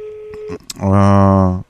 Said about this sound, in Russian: Да, где телефон? Вот, телефон позвонить. Сейчас хочу позвонить круглосуточно.